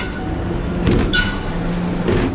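A door opens to the outside in a video game, with a brief whooshing mechanical slide over a steady background hum and no talk.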